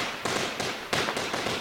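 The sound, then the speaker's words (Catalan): A small fireworks display goes off during the festa major in Sitges: a dense, hissing crackle broken by several sharp bursts in quick succession, loud and continuous throughout. “I un petit castell de foc darrere, a la baixada”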